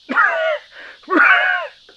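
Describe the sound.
Two strained, raspy wheezing breaths come from a person who has just inhaled a bug. Each lasts about half a second with a short pause between, and they are fairly loud with no talk over them.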